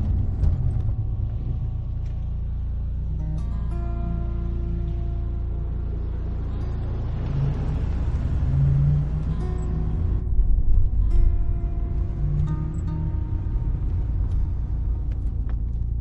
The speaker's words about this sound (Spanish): Observa a las tres niñas desde el coche. La sigue por calles estrechas.